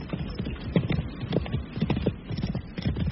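Horse hooves clip-clopping steadily while a rider travels across a wide, dun-coloured plain, a continuous run of many hoof strikes in an even rhythm at moderate loudness.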